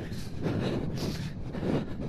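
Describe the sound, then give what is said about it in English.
Wind buffets the microphone by coastal cliffs, a low, rumbling roar that swells in uneven gusts and stays loud throughout without talk. “Oh, no, now into the wind again.”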